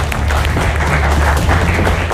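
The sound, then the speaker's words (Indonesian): Audience applause from students attending an evening panel discussion, a brief, dense and loud burst of clapping held steady with a low hum beneath it. “Tepuk tangan yang paling meriah.”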